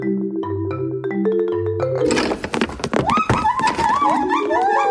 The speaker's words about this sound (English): Oi, come back here! That's a gang of larcenous gibbons making off with someone's treasured marimba.